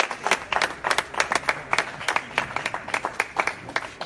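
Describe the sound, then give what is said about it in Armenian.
Steady applause from members of a community gathering welcoming a visiting official, many hands clapping in a dense, even patter with faint crowd murmur underneath. “հայ համայնքի հետ հանդիպմանը եկած ներկայացուցիչները Նիկոլ Փաշինյանին դիմավորեցին եւ ճանապարհեցին ծափահարություններով”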